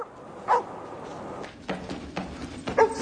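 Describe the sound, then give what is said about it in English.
A dog barking outdoors gives a couple of short, sharp barks, one early and one near the end, over a low, steady background hiss. “The tramp has taken his dog outside.”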